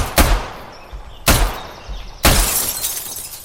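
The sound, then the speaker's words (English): Gunfire shatters a window in a video game: three sharp, loud cracking bursts a second or so apart, each with a breaking-glass burst that rings and fades before the next shot. “If I shoot this window,”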